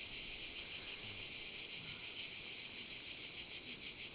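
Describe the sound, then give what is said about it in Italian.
Cicadas drone in a steady, shrill buzz that pulses slightly throughout, with a faint low rustle beneath and no voices. “risenti le cicale, il vento.”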